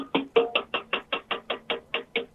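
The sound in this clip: Fingers tap a small aluminium tea box in a steady series of evenly spaced, bright metallic knocks, each short and crisp with a quick decay and no voices.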